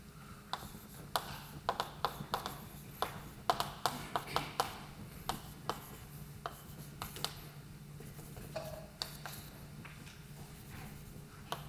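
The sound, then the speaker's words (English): A pen writes on paper, giving many quick, faint taps and scratchy strokes in an irregular rhythm, with no talking. “Let me write things down and then maybe say a few words.”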